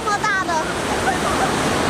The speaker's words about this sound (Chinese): 在峡谷吊桥上行走，头顶是上百米的岩壁，脚下是湍急的瀑布